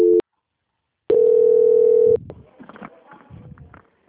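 A telephone transfer tone on a line while a call is being passed on: a brief beep, a pause, then a steady, loud mid-pitched tone lasting about a second, followed by quieter murmuring sounds.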